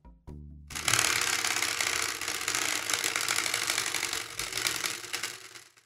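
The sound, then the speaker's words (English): Spinning prize wheel clicking, a dense, rapid mechanical rattle of ratcheting clicks that starts abruptly and runs steadily for several seconds before cutting off. “The spinny wheel has landed on the S1 Project”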